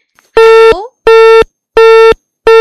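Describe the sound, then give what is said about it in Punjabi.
Telephone busy tone after a call to a studio line dropped: loud, steady, mid-pitched beeps of equal length, three full ones and the start of a fourth, evenly spaced by short silences, the first ending in a brief glide. “ਜੀ ਸ਼ਾਇਦ ਕਿਸੇ ਕਾਰਨ ਹੈ ਜਿਹੜਾ phone ਹੈ disconnect ਹੋ ਗਿਆ”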